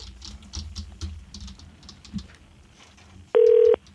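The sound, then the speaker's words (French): A telephone number is dialed, with a series of soft, irregular key taps followed by a single short, loud electronic tone. “OK, donc on l'appelle, on l'appelle là.”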